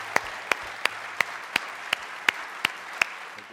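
Audience applause welcoming a pastor: a bed of clapping noise with nine loud, sharp claps standing out at an even, regular beat.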